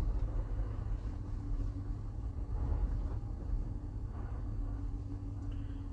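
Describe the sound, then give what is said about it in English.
A car drives on an icy road, making a steady, low, rumbling road and engine drone that continues unbroken throughout. “I'm trying to drive here in this slippery ass ice and stuff.”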